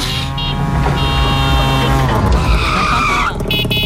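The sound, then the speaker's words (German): A tuk-tuk auto rickshaw drives past with a loud, continuous buzzing engine drone. The pitch shifts as it moves, and bright, squeal-like tones are heard throughout. “Denn es gibt das Tuk-Tuk. Und mit dem Tuk-Tuk kommt ihr zu Tomorrowland. Ja. Und das Tuk-Tuk klingt ja so.”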